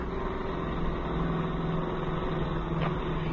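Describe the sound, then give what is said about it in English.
A hot rod car driving fast gives a continuous engine drone, a steady low rumble with a constant hum and no talking over it. “as long as Jimmy was kind enough to loan us his hot rod for the evening, I think we ought to take advantage of it. Well, aren't you driving a little bit fast?”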